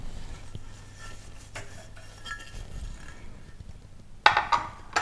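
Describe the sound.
Dishes, including a square plate, clink as someone tidies up at a kitchen counter: a few faint, scattered knocks, then a louder burst of clattering near the end.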